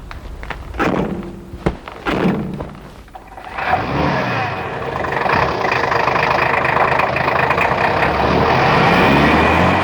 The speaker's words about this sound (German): Kommt, steigt ein, wir fahren los.